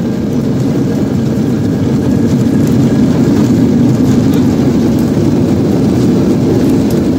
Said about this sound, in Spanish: Acabáis de entrar en un avión, aprovecharos bien el cinturón porque nos dirigimos hacia Estados Unidos.